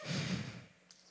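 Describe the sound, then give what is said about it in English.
A breathy exhale into a microphone at a church service, loud at first and then tapering off, followed by a faint short breath, with no talk. “I feel like you can hear me breathe in this microphone.”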